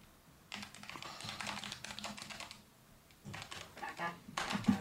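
Typing on a computer keyboard: rapid, uneven clicking in two busy bursts separated by a short pause, steady and moderately loud, with no voices.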